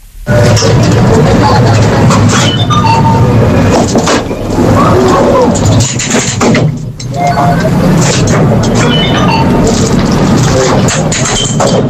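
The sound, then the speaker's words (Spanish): Commuter rail station with a train: loud, dense rumbling ambience with clattering and scattered knocks, murmuring voices mixed throughout, and a brief dip in noise midway. “Claro, a mí me suena a estación de cercanías. O sea, esto es una estación de cercanías,”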